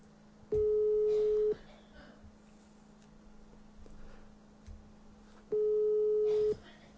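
Telephone ringback tone as a call is placed: two long, steady, mid-pitched tones of about a second each, separated by a few seconds of quiet low background sound.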